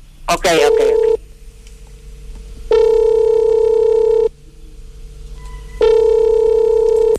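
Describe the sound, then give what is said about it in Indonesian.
Ringback tone of an outgoing phone call: three steady electronic tone bursts separated by short pauses, the first just after a brief click at the start. “Kita coba hubungin dulu Kang Jajanya, boleh Kang Hendra ya? Ditunggu sebentar ya.”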